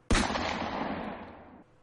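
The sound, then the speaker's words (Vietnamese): A gunshot sound effect as a trigger is pulled: one sharp, loud crack followed by a broad rumbling tail that slowly fades away. “Cuối cùng, cô ta nhanh chóng bóp cò.”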